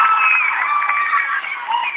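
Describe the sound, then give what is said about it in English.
A small but very vocal crowd cheering at a postseason volleyball match: sustained high-pitched shouting and whooping from many voices, loud and continuous throughout. “So not a huge crowd, but a very vocal crowd here.”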